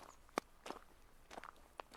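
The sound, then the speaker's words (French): Footsteps walking along a straight road, a few separate, soft steps spaced irregularly and heard faintly without talk. “Vous nous voyez marcher sur cette route droite, tout poudreux, tout crotté, la pluie entre les dents.”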